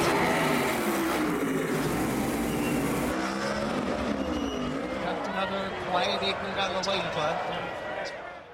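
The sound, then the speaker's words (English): NASCAR race cars roar along Chicago's lakefront in a loud, continuous engine drone that holds steady and swells slightly, with voices mixed into the noise. “There's Lollapalooza, Blues Fest, Taste of Chicago, and the thunderous sound of NASCAR.”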